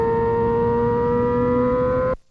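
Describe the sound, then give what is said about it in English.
Formula One car engine on a lap of the Zandvoort circuit, a loud, steady high-pitched whine holding for about two seconds before cutting off abruptly. “That was about half a lap of Zandvoort.”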